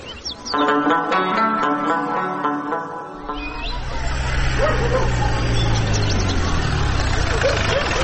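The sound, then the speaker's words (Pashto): Car engine rumbling at idle: a broad, steady low roar sets in after about three seconds of sustained harmonic tones and continues unbroken to the end. “د موټر غږ شو”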